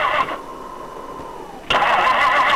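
A car engine with a frozen gas line cranks without catching, making a steady mid-pitched whirring drone that turns noticeably louder and rougher partway through.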